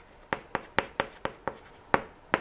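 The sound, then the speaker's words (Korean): Writing strokes sound as eight sharp, dry taps in an uneven rhythm, each a quick scratch that fades fast, heard alone against a faint hiss. “자, 써볼게요.”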